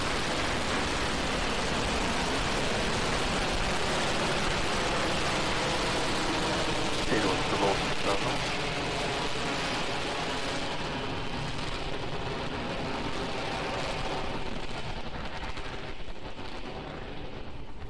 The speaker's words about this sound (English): Zero. Ignition. Lift off.